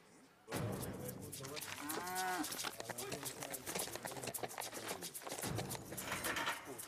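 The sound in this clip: A calf moos at a Chilean rodeo, where a rider on horseback chases it. A single wavering bawl rises above a dense, steady roar of background noise that continues throughout.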